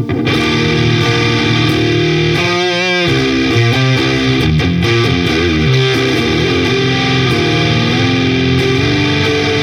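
An electric guitar plays through a mixer, with its high and low bands blended into one signal. Sustained notes and chords ring out loud and dense with a full, slightly gritty tone. The playing is steady, with no talking.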